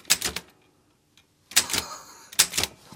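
Keys clack on a typewriter in quick clusters of sharp, loud strikes, then a short pause before two more bursts of typing.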